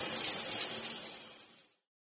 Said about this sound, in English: I'm in the shower.